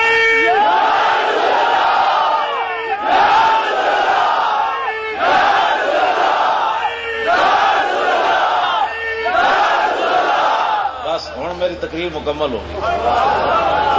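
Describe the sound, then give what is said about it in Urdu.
A large crowd chants a religious slogan in unison at a religious gathering: loud, repeated bursts of massed voices in a steady rhythm, with the pattern changing near the end. “انج نعرہ لاؤ کہ حال قیامت والے دن بھی گواہی دے وے”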